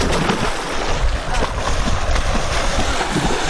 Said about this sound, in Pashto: دغه کوم غږ چې تاسو اورئ یو ځوان دی چې په اوبو کې لامبي.